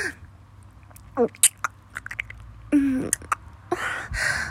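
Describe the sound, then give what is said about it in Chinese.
Chewing and mouth noises of someone eating: scattered short wet clicks, smacks and soft crunches, irregular and fairly quiet, with a couple of brief louder bursts near the end. “在吃东西呢。”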